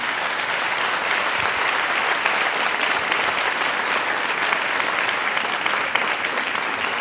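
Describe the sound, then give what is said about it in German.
Audience applause welcoming the 2023 German Book Prize winner: dense, continuous clapping that stays at an even loudness throughout. “wir machen jetzt hier mal ein bisschen Stimmung, weil Sie können gleich mal kräftig applaudieren”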